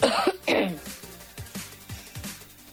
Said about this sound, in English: Hold that cough.